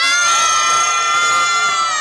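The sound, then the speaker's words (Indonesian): Crowd cheering and shouting at a fashion contest, a loud, sustained roar of many high, excited voices that holds steady for the whole stretch. “Nah, kita ulang sekali lagi dari sorak-sorai.”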